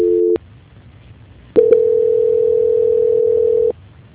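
A telephone tone plays during a call transfer: a brief steady tone cuts off, then after a short gap a continuous, mid-pitched tone holds for about two seconds before stopping abruptly.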